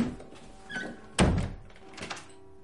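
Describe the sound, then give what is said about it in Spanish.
A toilet door is pushed shut with one solid, fairly loud thunk. Faint soft knocks and rustles come just before and after it. “Ella entra en el aseo y cierra la puerta.”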